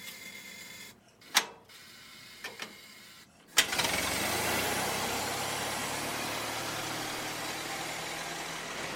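A Ford Model T engine starting. A few sharp mechanical clicks and cranking bursts come first, then the engine catches into a steady, rough running noise that lasts to the end.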